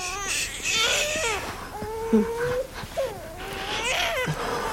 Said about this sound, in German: weint er. Ich glaube, er hat Bauchschmerzen.